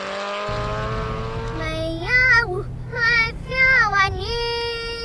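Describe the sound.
A car engine revs hard as the car speeds off, driven fast like a racing driver. Several loud surges of climbing engine pitch follow one another in quick succession.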